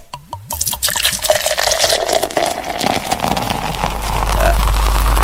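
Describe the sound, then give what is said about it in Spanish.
A sound effect of a glass filling with liquid opens with a few quick drips, then becomes a continuous pouring splash with a ringing tone that stays steady to the end. “¿Viste que el efecto está distinto? El efecto está como más largo, así como que se llena todo el vaso, hermano.”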